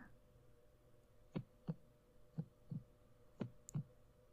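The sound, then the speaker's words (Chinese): A quiet heartbeat sound effect gives three soft lub-dub double thumps in a steady rhythm over a faint low hum. “为什么我突然心跳得好快？”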